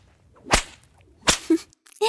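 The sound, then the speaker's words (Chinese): Whip lashes strike in two loud, sharp cracks spaced under a second apart, followed by shorter, fainter sounds. “来，让我赏赐你几鞭子。”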